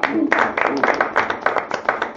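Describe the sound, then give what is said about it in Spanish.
Loud clapping from a small group applauds the winner of a promotion, many sharp, fairly regular claps repeating at a steady pace throughout. “Un aplauso para nuestro amigo Rodrigo, el ganador, digamos, de la promoción.”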